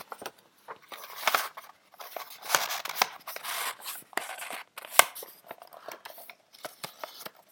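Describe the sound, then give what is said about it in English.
A sheet of paper is rolled up, giving many short crinkling and rustling bursts in an uneven rhythm, mostly faint with a few sharper crackles. “If we roll up the sheet of paper so that the two D's line up one on top of the other,”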